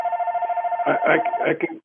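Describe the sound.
A telephone rings with a steady, rapidly pulsing electronic tone that runs through the whole clip. People talk over it partway through.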